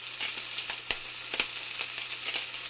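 Food fries in a pan while cooking, giving a steady crackling sizzle with scattered small pops, fairly faint and even, with no voices.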